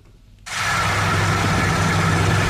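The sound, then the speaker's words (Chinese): Loud engine roar from a large combine harvester working at full power in a rapeseed field in Anhui. It starts abruptly after near silence and then holds as a dense, steady mechanical rumble and hiss. “在安徽黄山市歙县镇村镇梅村的油菜田里，大型收割机正开足马力穿梭作业，一垄垄油菜被快速卷入机身”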